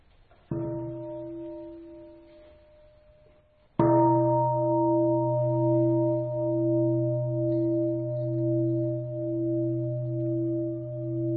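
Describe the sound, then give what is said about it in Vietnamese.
Meditation bell struck at the close of a Buddhist teaching session: two clear strikes, each a bright attack blooming into a sustained, pure ringing tone with a slow wavering hum, the second louder and ringing on to the end, alone. “Và tôi thỉnh 3 tiếng chuông, chúng ta ngồi nhiếp tâm mấy phút, rồi sau đó thì sẽ hồi hướng.”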